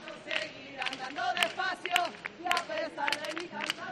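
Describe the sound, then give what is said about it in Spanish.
Palmas, rhythmic hand clapping from the Casa de Andalucía group passing in procession during the flower offering to the Virgen del Pilar, with sharp claps mixed among crowd voices. “porque no sé si escucháis ya este sonido que se oye por aquí. Estos son palmas porque está pasando la Casa de Andalucía.”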